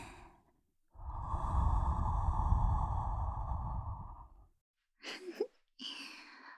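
A long, audible breath drawn out for about three and a half seconds, soft and airy at low volume, is followed by a few short breathy bursts after a pause.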